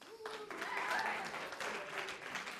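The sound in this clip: Audience applause welcomes a man called up to join a speaker at a morning gathering: a short, steady wash of clapping that stays even and fairly soft throughout.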